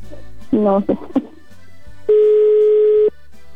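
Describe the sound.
Telephone ringback tone on an unanswered call: after a brief burst of voice, a single steady mid-pitched tone sounds alone for about a second, then cuts off.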